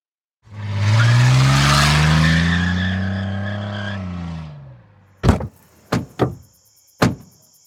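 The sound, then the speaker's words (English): A car engine roars and whines for about four seconds, a sustained tone that fades, followed by four sharp thuds in quick succession, like doors slamming. “Let's hit the road. I'll drive.”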